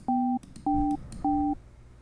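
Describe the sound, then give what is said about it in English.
Telephone keypad tones as a PIN is entered on a call-in host line: three steady electronic beeps of identical pitch, evenly spaced and each lasting about a third of a second, sounding alone without voices. “That was an invalid PIN for the Shepherd Ambella's show. Please re-enter your 6-digit PIN.”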